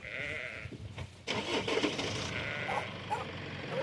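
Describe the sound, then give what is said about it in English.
Lambs bleat in an implement shed converted for lamb rearing on a farm, a few overlapping high, wavering calls rising over a steady low hum, fairly loud throughout. “Back at the home farm, Alistair's wife Jenna is busy rearing lambs that she plans to on-sell.”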